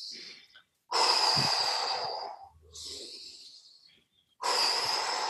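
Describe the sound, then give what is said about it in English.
Deep breathing during a relaxation exercise, in through the nose and out through the mouth: a few loud, airy rushes of breath separated by short pauses, one softer than the others, with no talking. “Just do 3 times, in through the nose, out through the mouth.”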